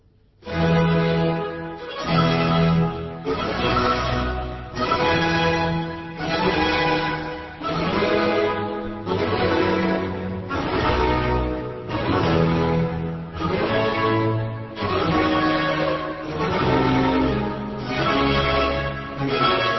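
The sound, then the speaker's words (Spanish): Overture of Handel's Water Music Suite in F major on period instruments, a stately orchestral passage in solemn French-style dotted rhythm, phrases swelling and pausing regularly at a steady, fairly loud level. “La primera suite que vamos a escuchar de esta música de las aguas de Händel es la suite en fa mayor”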